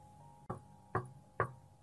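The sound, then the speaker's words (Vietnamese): Three evenly spaced knocks on the door of a private maternity room in a hospital, dull and moderately loud against a quiet, steady hum. “Tiếng gõ cửa phòng sinh dịch vụ kêu vang”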